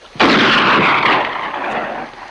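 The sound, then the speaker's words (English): A gunshot in a film scene: one loud, abrupt blast that trails off into a long, rumbling roar lasting about two seconds. “He turns the gun from Hammond, who's approaching him with a pitchfork, and shoots the unarmed asshole.”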